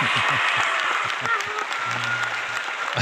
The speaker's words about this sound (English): Ladies and gentlemen, please put your hands together and help me welcome the author and man leading the art of the creative rebellion